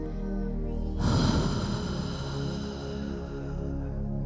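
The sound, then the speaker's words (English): A deep breath is drawn in, then released as a long, audible exhale through the mouth during a guided breathing exercise, over a steady tonal drone. “And so we bring the breath in to our bodies, and an audible exhale out”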